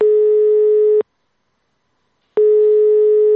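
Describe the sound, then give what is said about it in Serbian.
Telephone tone on an unanswered line at the former Dayton petrol station: a loud, steady, mid-pitched tone, a clean pause of over a second, then the same tone returning. “Na telefon Daytona, na jednoj od najužarenijih linija u državi 90-ih, danas se niko ne javlja.”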